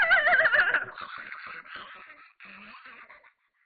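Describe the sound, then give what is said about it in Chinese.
A horse neighs in the distance, a single whinny that opens with a shaky, quavering high cry and then trails off into a rougher, fading tail. “这个时候就听见远处一声马嘶”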